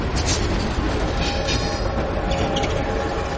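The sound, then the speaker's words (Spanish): A train passing through a tunnel: a dense, steady roar of wheels and rolling stock with a faint clatter, loud and unbroken throughout, with no voices. “De un tren pasa por un túnel.”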